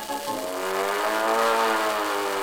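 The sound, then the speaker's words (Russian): Engine humming in a steady, loud drone, a continuous buzzing tone rich in harmonics that holds without a break. “Гудит мотор, хороший есть вечер, в лицо струит воздушная волна.”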